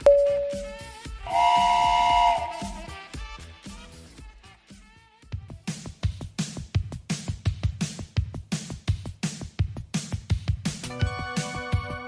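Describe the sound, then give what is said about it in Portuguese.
Train departing: a short steady whistle tone and then a longer, chordal horn blast, followed by a regular rhythmic chugging that continues to the end, with a bright harmonic whistle chord returning near the close. “Atenção passageiros, o Expresso Retrô está prestes a partir.”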